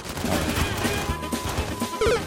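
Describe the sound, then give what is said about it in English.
Gunfire in a video game: a dense, loud stream of sharp bangs and crackling blasts that runs through the whole stretch, with a heavier burst near the end. “Okay, I did shoot that guy. You know what? This is their fault. I'm just firing and I got this guy.”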